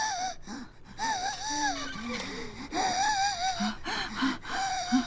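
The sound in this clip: Labored wheezing and gasping from a person struggling to breathe, with many strained, squeaky high-pitched breaths and whimpering tones repeating in an uneven rhythm throughout.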